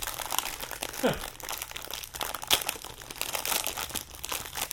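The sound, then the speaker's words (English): Plastic packaging crinkling as it is pulled from inside an Instant Pot, a package holding silicone mitts. Irregular crackly rustling runs throughout, broken by a few sharper crunches. “I have pulled open the Instant Pot, and I'm glad I did because there's stuff on the inside.”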